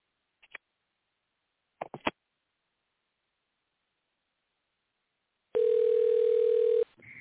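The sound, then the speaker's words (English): A telephone dial tone sounds during an attempt to call someone back. A few faint, short clicks come first, then the steady, single-pitched tone holds loud for just over a second and cuts off. “We're going to try to call back and get him back on.”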